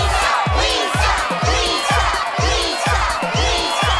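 A studio-audience cheering effect: loud, dense crowd noise with a regular pulsing throb repeating about twice per second, which gives it a looped, mechanical feel.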